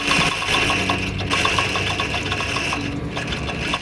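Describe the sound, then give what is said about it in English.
A sewing machine runs steadily, stitching a piece of supple material, with a loud continuous whir and fast, regular ticking from the needle. “is sitting in front of a sewing machine, a piece of material in it.”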